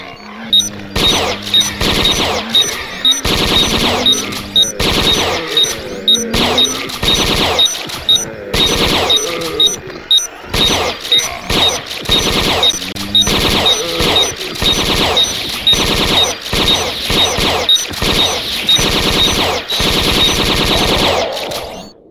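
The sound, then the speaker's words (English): Automatic bolt gun firing in a video game: loud, rapid bursts of repeated shots with brief gaps between them, continuing for the whole stretch. “There we go. It's automatic bolt gun.”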